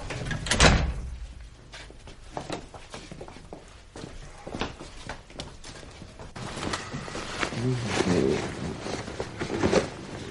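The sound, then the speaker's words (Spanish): A house door is opened, with scattered knocks, clicks and rattles of handling spread across the stretch at a low, steady level and no talk. “Después abren la puerta de la casa.”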